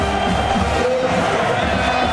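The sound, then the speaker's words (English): A football stadium crowd roars at Furrow Field during a Missouri–Texas A&M game, facing a fourth down late in the contest. A dense, steady wall of cheering and shouting holds at full volume throughout. “Crowd building itself into a frenzy here inside Furrow Field.”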